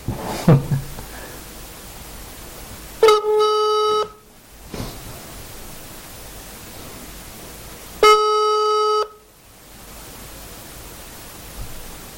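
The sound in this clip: Phone beeping as a call-back comes in: two long, buzzy electronic beeps about five seconds apart over a steady background hiss.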